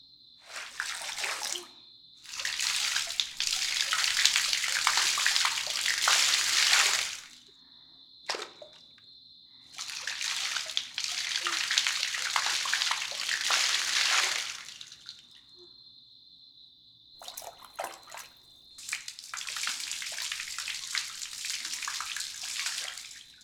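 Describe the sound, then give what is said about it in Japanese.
Water is poured over someone to rinse them off, in three long, steady gushing pours separated by brief pauses, loud and rushing with no talk. “はい、ないようですので洗い流していきますね。かけていきます。”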